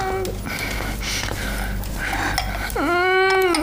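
A young woman cries and sobs, with breathy, broken sobbing sounds followed by a louder, quavering wail at the end.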